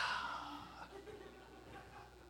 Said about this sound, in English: And when he had said this, he breathed on them. Like, here's some resurrection breath, y'all.